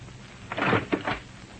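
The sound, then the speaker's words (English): A door is opened, a brief cluster of soft clunks and rattles heard on its own over a quiet background. “Open the door.”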